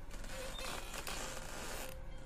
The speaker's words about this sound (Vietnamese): Lúc này, tiếng nhà sàn kẽo cả kẽo kẹt, đến xót ruột lại vang lên.